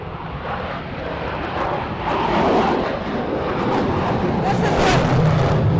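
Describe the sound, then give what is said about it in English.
Roaring engines of military demonstration jets pass overhead. A broad, rushing drone grows louder after the first couple of seconds and stays heavy and sustained to the end. “And we had the Thunderbirds fly just for you.”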